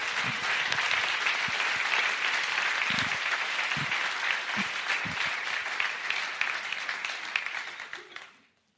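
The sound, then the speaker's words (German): Audience applause at a church jubilee service: dense, steady clapping from a full crowd that holds an even level for several seconds, then tapers off and fades out at the end. “Also gebt ihr auch nochmal einen kräftigen Applaus.”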